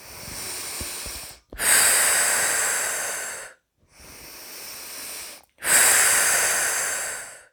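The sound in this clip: Slow, airy breathing during a relaxation exercise: two long, loud exhalations of about two seconds each alternate with softer breaths, separated by short silent gaps.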